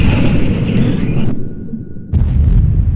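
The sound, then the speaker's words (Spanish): Torpedoes explode against the starboard fuel tanks of an oil tanker loaded with cargo, producing a loud, dense roaring blast that drops briefly into a quieter lull before another heavy rumbling surge. “Dos de los torpedos impactan en los tanques 5 y 6 por el costado de estribor y el petrolero se hunde con la carga en pocos minutos.”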